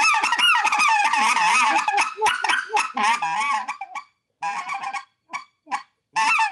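Speckle-belly goose calls blown on a handheld goose call: many quick, loud, reedy honks and yelps in fast bursts. Later the bursts come as shorter clucks and honks separated by brief silences.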